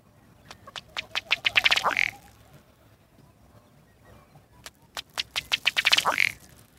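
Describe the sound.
Diving ducks quacking in two separate bursts, each a rapid, accelerating series of calls that builds to a louder, harsher squawk. A short, quieter gap lies between the bursts, and no voices are heard.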